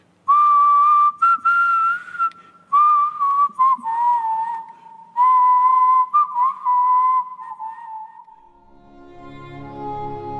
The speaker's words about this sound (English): I think I hear whistling from deep in the prison.